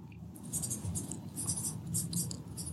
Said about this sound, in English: Here you go. I'm writing it down as we speak.